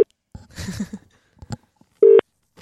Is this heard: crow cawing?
no

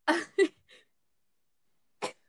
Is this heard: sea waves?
no

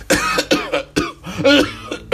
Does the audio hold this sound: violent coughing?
yes

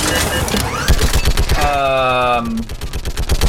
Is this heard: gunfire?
yes

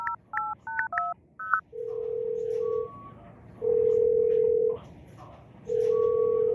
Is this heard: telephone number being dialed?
yes

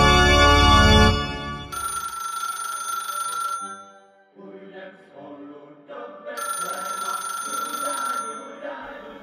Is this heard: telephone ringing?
yes

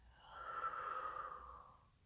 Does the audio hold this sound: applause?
no

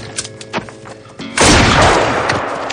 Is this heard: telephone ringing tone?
no

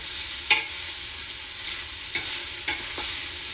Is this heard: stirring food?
yes

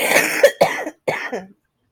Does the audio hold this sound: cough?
yes

